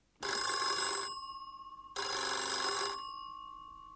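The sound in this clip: A telephone bell rings twice: two bright, rattling bursts about a second each, separated by a short pause, with a steady ringing tone lingering after each burst.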